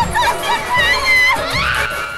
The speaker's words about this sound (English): The crowd runs past. The crowd runs by three people reading copies of Fab, Austin's picture on the front.